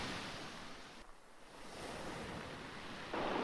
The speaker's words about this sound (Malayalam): കാതിലും മനസ്സിലും അവശേഷിക്കുന്ന കടലിരമ്പം പോലെ ചിലത്. അതെ, ആ കടലിരമ്പുക തന്നെയാണ്.